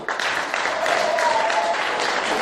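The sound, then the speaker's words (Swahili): A church audience claps for the Lord during a worship service, a dense, even patter of many hands that carries on without a break. “Pigie Bwana makofi.”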